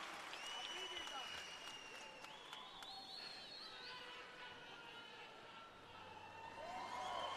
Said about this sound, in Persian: یه دست خوشگل برای رفقای من.